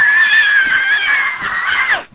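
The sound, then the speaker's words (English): A man imitating someone screaming and hollering, with one long, loud, high-pitched shriek held for about two seconds before breaking off sharply. “He's just screaming and hollering. He runs down the aisle. He gets right on national TV going just like this.”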